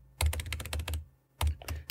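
Rapid keystrokes on a computer keyboard as a search is typed into a maps site: a fast run of clicks, a short pause, then another quick burst of typing.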